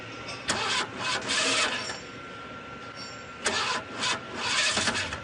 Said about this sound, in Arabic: شغل السيارة.